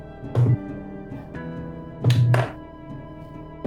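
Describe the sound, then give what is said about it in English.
Three six-sided dice rolled during a tabletop game produce dull, wooden thunks and clatters, one early, a closely spaced pair later and another at the very end, over a quiet, steady hum. “So I'm going to roll 3d6 right now and add that.”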